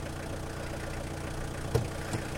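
A red Mazda car's engine idles with a steady, low, even rumble that runs throughout. A faint brief knock rises slightly above it near the end.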